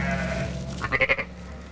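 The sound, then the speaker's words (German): Ewes with newborn lambs on a North Frisian dike flock give a short bleat, a wavering call of several quick pulses rising over a steady low background hum. “Er trennt die Mutterschafe mit den frisch geborenen Lämmern von der Herde und kontrolliert jede Geburt.”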